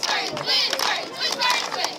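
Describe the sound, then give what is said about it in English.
A high school cheerleading squad cheers in bright, overlapping shouted voices that rise in loud bursts, with brief dips between them. “At Iowa's Pleasant Valley High School, they're cheering for more than school spirit.”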